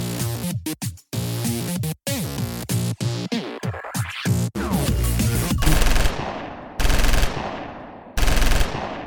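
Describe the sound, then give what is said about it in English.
Guns fired at targets, heard as rapid automatic gunfire in many loud, crackling bursts. The shots run almost continuously at first, then break into a few separate bursts with short gaps between them. “Oh, these babies can shoot! How about the recoil? Not bad. Man, look at the holes in those targets.”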